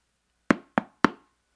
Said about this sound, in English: I arrived on Sunday and knocked on her door.